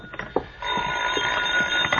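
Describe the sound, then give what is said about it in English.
A telephone ringing in an apartment shortly before midnight: a steady, continuous ringing tone that starts partway in and holds to the end, after a few soft knocks at the start. “You're still searching for a solution shortly before midnight, as you enter your apartment to find the phone ringing.”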